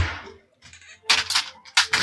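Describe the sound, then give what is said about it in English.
Dice rolling and clattering on a table during a tabletop role-playing game session, a few short, dry rattling bursts of varying loudness separated by brief pauses. “I gotta switch to real dice.”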